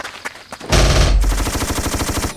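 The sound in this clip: Rapid automatic gunfire in a zombie-shooting video game: a loud blast opens a burst of many quick, evenly spaced shots that rattle on steadily to the end.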